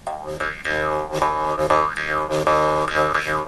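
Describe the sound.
Jaw harp played with an open throat while breathing in and out: repeated twangy plucks in a steady rhythm, deeper and fuller, with wavering overtones swooping up and down across each stroke.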